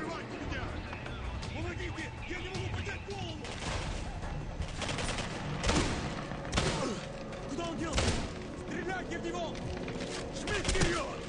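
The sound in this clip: A double-barrel shotgun fires in a video game, with several sharp, booming blasts scattered over a busy, steady game soundscape, people talking throughout.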